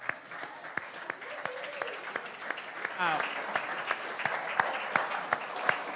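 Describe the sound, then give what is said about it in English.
A church audience gives a standing ovation, with steady, fairly faint applause and sharp individual claps standing out. A few voices mix in. “Let's give him a standing ovation.”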